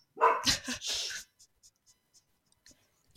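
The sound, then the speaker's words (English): Dog barking at people moving around outside: a short loud burst of a few sharp barks in quick succession, followed by faint scattered clicks and ticks in near silence. “She can hear people moving around outside, so she has to bark.”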